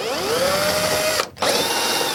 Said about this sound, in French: Oups. J'ai encore failli péter la vitre. Parce que ma visseuse était sur serrage.